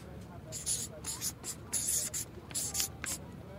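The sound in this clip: Someone writes by hand, making quiet, scratchy pen strokes in short bursts with brief pauses between them.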